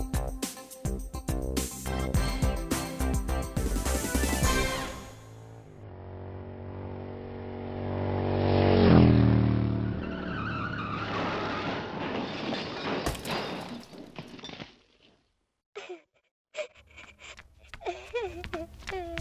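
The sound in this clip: A speeding vehicle's engine roars loudly past and nearly hits a child on a road. The roar fades into voices talking.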